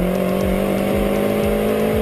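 A student-built race car's four-stroke 600cc engine runs at a steady, loud, droning pitch, its buzzing tone holding level throughout with no pauses.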